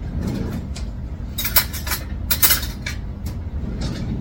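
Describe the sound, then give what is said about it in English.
A spoon picked up and cutlery clinking while meat is rubbed with barbecue and hot sauce, heard as bright metallic clinks and rattles in two short clusters over a low steady hum. “we're going to get a spoon.”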